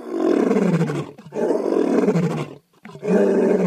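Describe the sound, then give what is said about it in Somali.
A lion roars three times, each roar deep, loud and drawn out, separated by short pauses; the last roar is cut off at the end. “markii libaaxu qaylada bilaabayba”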